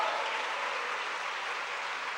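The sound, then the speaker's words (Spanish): An audience applauds during a church service, producing faint, even, continuous clapping with no clear pauses or peaks and no talk over it. “¿Cuánto le dan un aplauso a esa sangre maravillosa?”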